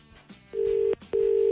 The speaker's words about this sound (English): Let's call her direct. Yeah. Hey, it's ringing.